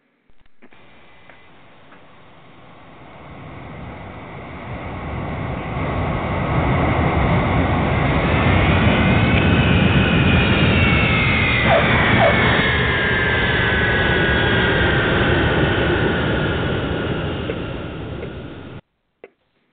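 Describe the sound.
Roar of an Eastern jet airliner landing on runway 27 right: a broad, rushing engine noise swells over the first seconds, holds loud and steady, then cuts off abruptly near the end.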